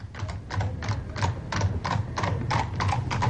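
Hooves clip-clop as a horse draws a carriage along a street: a steady, even trotting rhythm of many hoof strikes, each pairing a dull low thud with a brighter clack, moderately loud throughout.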